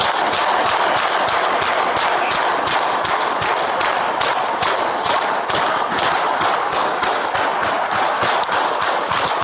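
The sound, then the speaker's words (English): Gunfire from police officers shooting at a suspect: many sharp, loud cracks in a fast, steady rhythm, packed closely together throughout. “Then that's, I assume, why they're shooting so many times.”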